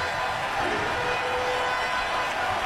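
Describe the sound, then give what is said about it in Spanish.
A standing baseball crowd at Truist Park during the postseason, a steady, even roar of crowd noise with no distinct peaks throughout. “Dos strikes sin bola, tiene para trabajarlo el público de pie. Escuchen al público aquí en el Truist Park.”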